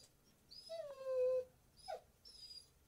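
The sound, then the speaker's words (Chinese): A dog whimpering and crying at home: a long, high, wavering whine with a tonal, moaning quality, then a brief sharp yelp, then another fainter high whine. No talking. “等我一下，我家狗在哭。”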